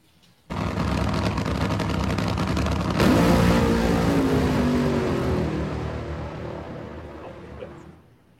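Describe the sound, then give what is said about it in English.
A Studebaker car engine revs. The roar starts suddenly, holds steady and loud, surges with a sweeping rev about three seconds in, then gradually fades away over the last few seconds. “we've got a clip of the Studebaker we're going to play, and then we'll jump in and pay some bills and switch gears here. Roll it, T.”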